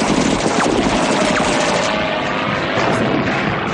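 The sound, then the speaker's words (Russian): Aircraft cannon fire strafes the ground beside a trench in a war scene, a dense, loud rattling burst that churns under a continuous engine roar for the whole stretch. “Самолетная пушка вспарывает землю рядом с окопом.”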